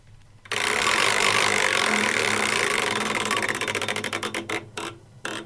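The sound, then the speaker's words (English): A prize wheel spins with a dense, loud whirring rattle of rapid clicks that gradually slow into distinct, widely spaced ticks before coming to a stop, with no talk. “I think it's time for a spin of the Wheel of Musical Destiny. Okay, here we go.”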